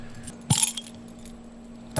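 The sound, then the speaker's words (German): Keys jangle as a bottle of Altbier is opened with a key in place of a bottle opener: two brief bursts of metallic jingling stand out over a low, steady hum. “das hat eher so ein Schlüsselgeräusch gemacht gerade. Schlüssel, ja. In der Hektik heute kein Flaschenöffner eingepackt.”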